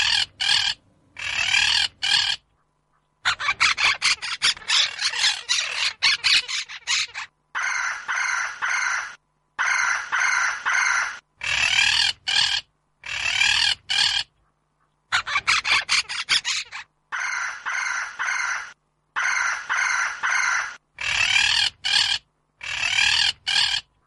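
A bird gives harsh, raucous calls in many repeated bursts, loud bright phrases broken by short silences, with no voices.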